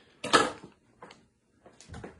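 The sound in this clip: Crinkling plastic as a Dollar Tree food package is opened, heard in a few short rustling bursts separated by near silence, the first the loudest.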